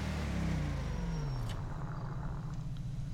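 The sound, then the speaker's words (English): A car engine drones during a drift in a FiveM freeroam driving game. The low, fairly faint engine tone slides steadily downward in pitch for about a second and a half, then settles into an even rumble. “Wait 2 seconds, I was doing like an insane drift.”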